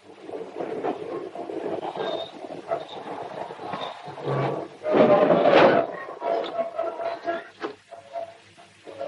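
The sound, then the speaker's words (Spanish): A passenger train rumbles along the rails on a night journey back to Zaragoza, with a steady low roar and scattered rattling and clatter. The roar swells louder for a moment midway, then settles back. “Santiago viaja en el tren de vuelta a Zaragoza”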